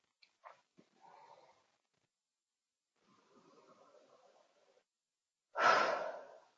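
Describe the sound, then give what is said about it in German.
Slow, deep breathing during a guided breathing exercise, with a soft inhale, a longer, quieter drawn breath, and a louder, forceful exhale at the end, each separated by near silence. “Ich atme durch, immer und immer wieder, und erkenne den Lebensfluss.”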